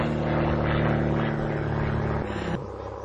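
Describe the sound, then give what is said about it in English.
An airplane flies overhead with a loud, steady droning roar and buzzing engine harmonics. The roar holds evenly, then drops slightly in level near the end. “What the hell is that? That's a plane.”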